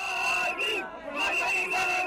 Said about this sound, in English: Gorgui is great, chanted the crowds as Wade made his way through the city.